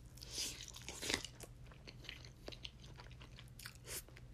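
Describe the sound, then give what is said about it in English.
Quiet, crunchy biting and chewing of food, with sharp crisp crunches and moist mastication sounds, a stronger bite standing out near the start, over a low steady hum with no talk. “let me take a quick bite. Okay, maybe two.”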